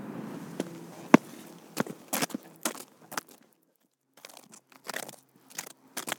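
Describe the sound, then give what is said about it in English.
Footsteps of people walking beside a dock make faint, irregular crunching steps, many scattered soft impacts with brief gaps between them and no talking. “We'll make a few actual strides because we haven't walked far yet.”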